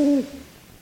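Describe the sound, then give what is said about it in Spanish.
A single short owl hoot: a steady low tone with a faint overtone lasts a fraction of a second, then stops abruptly and gives way to quiet. “Gracias, señor búho.”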